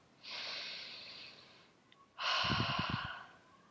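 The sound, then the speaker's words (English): A deep breath, heard alone: a long, airy inhale followed after a brief pause by a louder, rougher exhale with a slight throaty rasp. “Take a deep breath.”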